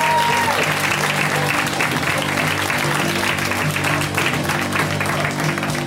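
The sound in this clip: Sustained applause from a comedy show audience greeting a comedian, a dense, even wash of clapping that stays loud and steady for about six seconds without letting up.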